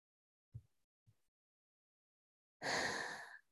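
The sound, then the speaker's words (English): One deep breath, a soft airy rush lasting under a second after two faint low thumps, otherwise quiet with no talk. “And deep breath.”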